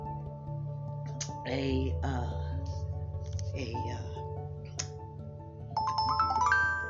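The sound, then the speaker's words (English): A phone's message notification chime: a short electronic tone that steps upward in pitch near the end, sounding over ongoing speech and low background hum. “excuse that noise, that's somebody sending me a message,”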